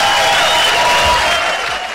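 Applause, loud and dense, holding steady for about two seconds before easing off slightly at the end, with a faint sustained tone running beneath it.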